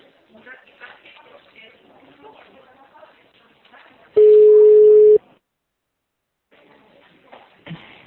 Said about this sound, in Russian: Сейчас я еще раз набираю.